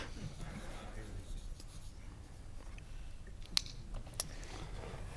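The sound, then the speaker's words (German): A pen scratches across fabric as a football jersey is signed, with faint, soft rubbing strokes throughout and two sharp little clicks near the end. “Bei mir ist es toll, ich bin das nicht gewohnt, Trikots zu unterschreiben.”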